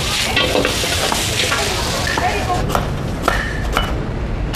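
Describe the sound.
Food stir-frying in a wok gives a steady, fairly loud sizzling hiss that runs throughout, with a few brief scraping clatters in the second half.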